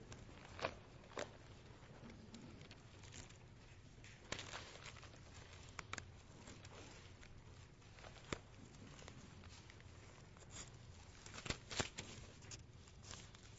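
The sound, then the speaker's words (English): Pages of a new Bible are turned with faint, sporadic papery rustles and flicks, broken by several sharper crinkles and snaps. “I'm having the hardest time changing the pages in my, I mean, turning the pages in my new Bible.”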